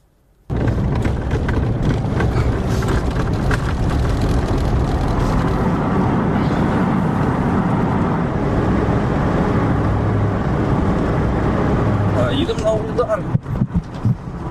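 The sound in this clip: Vehicle driving toward front-line positions near the war-torn town of Vuhledar: a loud, steady engine and road rumble that starts abruptly after a moment of silence and continues unbroken to the end.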